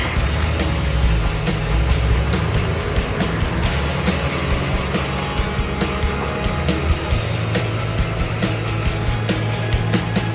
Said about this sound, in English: The truck starts and they're on their way.